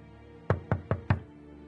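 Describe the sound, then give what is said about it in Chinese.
Four sharp knocks land on an apartment door, evenly spaced and fairly firm, with quiet before the first and after the last. “他只好敲着门。”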